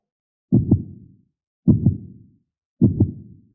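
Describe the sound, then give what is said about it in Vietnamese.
A heartbeat thuds three times at a steady pace. Each beat is a low, muffled double thump that decays quickly, with silence between beats. “Vào thời khắc này, một cổ chấn động kỳ quái đột nhiên vang lên bên tai của Hàn Lập. Chẳng biết tại sao, trái tim của hắn đột nhiên trở nên mất kiểm soát, đập liên hồi, hơn nữa có khuynh hướng đập càng lúc càng nhanh.”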